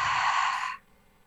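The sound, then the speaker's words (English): A single deep breath exhaled through the open mouth: a steady, airy rush that stops abruptly after under a second, leaving near silence. “Take a deep breath in. Open the mouth, exhale.”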